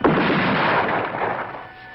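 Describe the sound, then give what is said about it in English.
A ceremonial gun salute fired by ski patrol outdoors in cold, snowy conditions: one loud, sharp blast that decays into a long rumbling echo over about two seconds. “Are they really going to do a gun salute here? Fire.”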